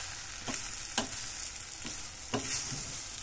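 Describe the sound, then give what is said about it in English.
Vegetables fry and sizzle in a pan over slightly raised heat, a soft, steady crackling hiss punctuated by four louder scraping stirs. “I need to be patient until all my veggies are properly cooked. I'm going to turn up my heat just a little bit. I don't want to burn everything, but I just want to speed things along.”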